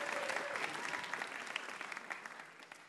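An audience applauds a winner with dense, steady clapping that eases off slightly toward the end.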